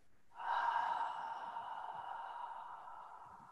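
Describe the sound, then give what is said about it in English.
A long, slow exhale during a guided breathing exercise. The breath out starts suddenly with a soft, voiced, sighing tone, holds steady, and gradually fades, quiet and on its own. “Hold. Exhale.”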